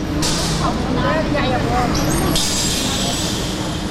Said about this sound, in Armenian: Մեր ավտոբուսն էլ եկավ։